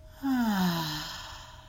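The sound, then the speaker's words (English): A slow exhale through the mouth during a guided breathing exercise: one soft, voiced sigh of breath that starts suddenly, slides gently downward in pitch and fades out over more than a second. “So let's breathe in, hold, and exhale.”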